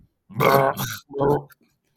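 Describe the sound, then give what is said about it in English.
A dog passing gas into a microphone: two low, buzzing, rasping bursts of about half a second each, separated by a short pause. Both are fairly loud and there is no talk. “why you got to fart in the mic, bro?”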